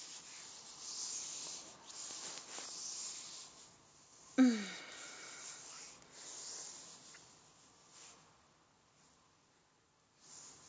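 Hands running over bare breasts make soft, continuous rubbing and swishing against skin, with one sharp squeaky burst midway and the rustle fading quieter toward the end.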